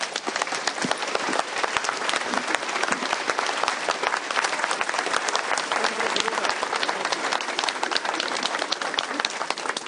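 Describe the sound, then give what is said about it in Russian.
Applause as an audience claps for one another, a dense, loud, steady rattle of many hands that keeps an even intensity for the full ten seconds. “большое спасибо, похлопаем друг другу.”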